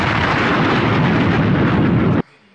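A Funkmaster Flex-style bomb-drop sound effect: a dense, booming explosion roar that holds steady and loud for about two seconds, then cuts off abruptly, leaving only a faint low tail.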